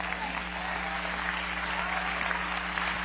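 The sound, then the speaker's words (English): Applause from an audience clapping their hands, a dense, even patter of many hands that holds steady throughout over a low hum. “If you understand what I say, just clap your hand.”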